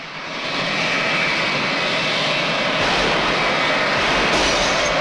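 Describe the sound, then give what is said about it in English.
Aircraft engine din, a loud roar that builds over the first half second and then holds steady and heavy throughout. “Ross appears to be waiting for the din of the aircraft to completely cover the gunshot.”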